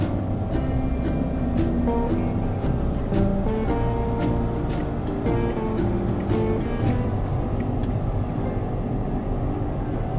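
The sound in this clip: A car accelerating on a highway late at night among trucks gives a loud, continuous low engine rumble with a steady tonal drone and faint regular ticks running through it, with no voices.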